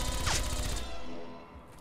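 A laser gun fires in a sci-fi audio drama during a shootout: one sharp zap sweeps steeply down in pitch over a dense, loud, noisy backdrop that continues and slowly thins after the shot.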